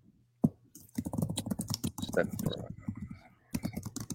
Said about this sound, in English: Could you please type that in there? Sure, I will.